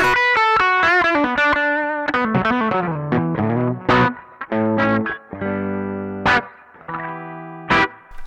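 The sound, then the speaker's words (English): Electric guitar pickups push the front of an amp into natural overdrive with no pedals or boost. A quick tumbling run of gritty notes gives way to sustained distorted chords struck hard with sharp accents and ringing decays. “There's no guitar pedals, there's no boost, there's nothing. It's just the sound of the pickups pushing the front of the amp.”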